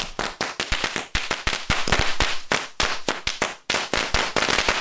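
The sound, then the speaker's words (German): Firecracker bangs mark an arrival at an outdoor garden party: many sharp, loud cracks burst in rapid, irregular succession, with no voices. “Ah, da kommt er ja. Mit Böllerschüssen. Wie originell.”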